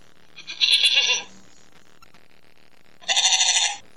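Sheep bleating twice, two loud nasal bleats of under a second each, separated by a quiet gap of about two seconds, with no voices.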